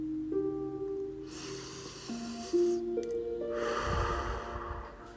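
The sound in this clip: Deep, airy inhaled breaths during a morning meditation, two long soft rushes of air over gentle sustained musical tones.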